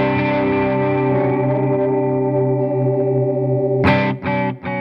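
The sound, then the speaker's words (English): An effects unit modulates pitch as its width control is turned up from zero, with speed also adjustable. It makes a sustained, loud, harmonically rich tone that wavers, followed by a few sharp new notes struck near the end. “Then there's also controls in the middle here for speed and width. So if I, this is the width all the way down. If I introduce that. You hear that pitch change?”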